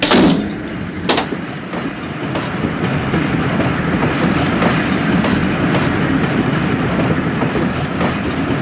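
A train departing, with two sharp metallic clanks at the start, then a steady rumble of rail cars and a rhythmic clickety-clack of wheels on the track.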